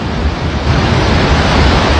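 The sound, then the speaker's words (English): A thunderous roar of water shoots through the Gardner Dam spillway. It is a loud, steady, dense rush with no breaks, heard alone without voices. “A thunderous roar as a wall of water shoots out of the Gardner Dam. Water is now flowing through the dam spillway and headed towards Saskatoon.”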